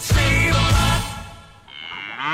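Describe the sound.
A cow moos with a loud, deep, drawn-out low, followed by a brief dip and then a different, higher wavering sound.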